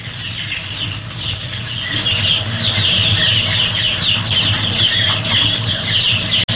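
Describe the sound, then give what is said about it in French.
Chicks peeping in a henhouse, a dense, continuous chorus of high, busy chirps over a steady low hum, growing a little fuller after the first two seconds and cutting off abruptly at the very end. “Ça, c'est dans un poulailler, ça. Ouais, non, mais c'est quoi exactement? Bah, c'est des poussins, ça. Ouais, c'est des poussins.”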